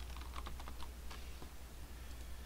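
Quiet tapping of keys on a computer keyboard while a campaign name is entered, a quick run of many light clicks in the first half that thins to a few scattered keystrokes.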